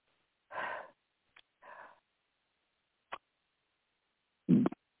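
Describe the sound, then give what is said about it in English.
A nervous person takes a breath: a few soft, airy inhale and exhale bursts separated by silence, a brief click in between, and a louder, sharper burst of breath near the end. “A little nervous this morning. So let me just take a breath.”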